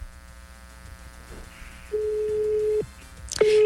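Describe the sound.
Telephone line tones on a call being redialed after reaching voicemail. A single steady beep holds for about a second over faint background noise, then falls silent before the tone starts again.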